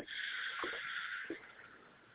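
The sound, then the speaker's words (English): A deep breath is released during a belly-breathing exercise, a long, airy, hissing exhale that holds steady and then gradually fades out. “And breathe in. Make sure you're fattening up your stomach. Then release.”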